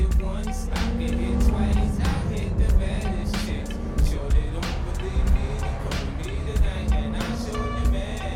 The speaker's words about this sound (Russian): По Макао едут машины.